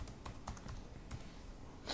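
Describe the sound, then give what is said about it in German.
Keystrokes on a computer keyboard as a username and password are typed into a database login, a quick run of light, dry clicks, quiet and with no talk. “Den Hochsicherheitsbenutzernamen werde ich jetzt noch reingeben und das Passwort.”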